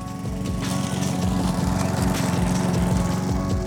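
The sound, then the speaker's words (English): A lawn mower runs steadily with a loud, buzzing engine drone and a fast rhythmic chug underneath, holding an even pitch and level throughout with no other sounds. “Maybe you mowed your lawn.”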